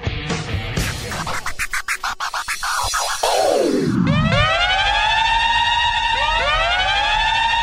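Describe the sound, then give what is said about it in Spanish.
A siren sound effect: loud wailing tones sweep up and down repeatedly and are joined by a second, higher wail. Before them come scratchy, choppy hits and one long falling sweep. “Suena la sirena en Al Fin Solos. Y esto es señal de que el programa empieza a tomar otro tinte.”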